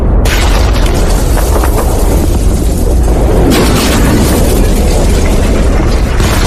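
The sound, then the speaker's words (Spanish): Artillery shells and bombs exploding on a mountaintop, a relentless barrage of heavy booms merging into one loud, continuous rumbling roar, with no voices. “revientan la cima de la montaña y prácticamente pulverizan toda la zona. Entre las bombas, la artillería golpea la montaña.”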